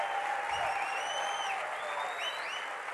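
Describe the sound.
Loud, sustained applause from an audience during a religious sermon, a dense steady wash of clapping that holds at an even level for the whole stretch.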